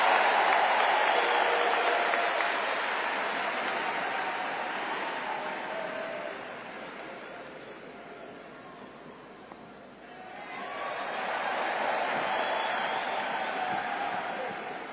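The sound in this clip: Sustained audience applause welcomes a speaker at an alcoholics' recovery meeting: a dense, steady clatter of clapping that thins out midway, then swells back to full strength.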